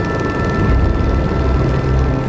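Helicopter rotor and engine noise during flight over the Bhotekoshi River where floods broke through, forming a loud, dense, steady rumble heavy in the low end, with a faint high whine and no voices.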